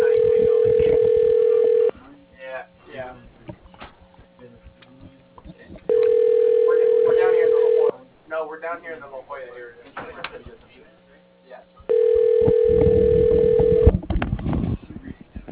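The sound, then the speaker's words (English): Telephone line tones after dialing an extension on a golf club's phone system: three long steady beeps of about two seconds each, spaced six seconds apart, with people talking in the gaps between them. “To reach Tom, dial 4.”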